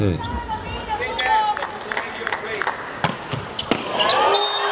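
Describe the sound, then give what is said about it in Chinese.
Volleyball jump serve by the Polish team in a match: sharp slaps of the ball being struck stand out above crowd noise and squeaking movement, while commentators talk over the action. “咱们看波兰队这边的发球，暂停以后上来这个跳发，来到抢发轮的时候还是要尽快过轮啊。”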